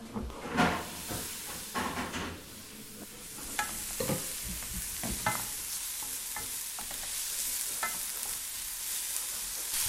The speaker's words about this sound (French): Faites-les revenir 3 minutes à la poêle dans du beurre.